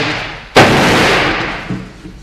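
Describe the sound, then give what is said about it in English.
Fireworks going off outside: a sudden loud bang with a long rumbling decay, followed by a faint second thump near the end. “what was that? Fireworks. Eh? Fireworks.”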